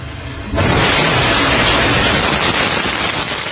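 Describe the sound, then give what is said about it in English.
Northrop Grumman Antares rocket lifting off from NASA's Wallops Flight Facility: after a brief quieter moment, a loud, broad, rumbling roar bursts in and holds steady and powerful to the end. “A Northrop Grumman Antares rocket blasted off from NASA's Wallops flight facility last night.”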